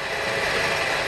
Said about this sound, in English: That is the sound of almost 1,000 gallons of jet fuel whooshing through a hose over my head and into the wing of a 737 MAX 9 at San Francisco International Airport.